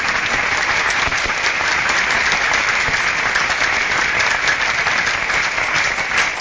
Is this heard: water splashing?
no